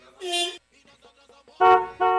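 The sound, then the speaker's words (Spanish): Car horn honks in a few short, loud tonal blasts, with soft low sounds in the gap between them. “¿Ese es un claxon de qué?”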